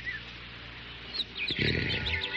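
Birds chirp in spring: a few short, high chirps scattered through the second half, over a low rumbling background, with no talking.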